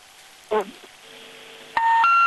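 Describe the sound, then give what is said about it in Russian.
Electronic telephone line tones sound on a live radio call line as the caller's call drops. A short warbling burst comes first, then loud, steady tones that step up in pitch and continue to the end. “Сорвался звонок, к сожалению.”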